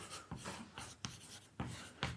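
Chalk or marker writing on a board during a coding lesson: several scratchy, bright strokes in quick bursts, each a short rasp with brief pauses between, with no talk over them.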